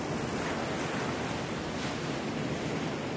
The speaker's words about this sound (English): the waves of Mackerel Cove in Jamestown, Rhode Island.